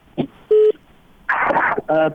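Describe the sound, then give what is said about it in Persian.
A telephone call connects on a radio phone-in line, marked by a short, steady electronic tone, with brief bursts of voice and line noise before and after it. “یک تلفن وصل شد بخیالم.”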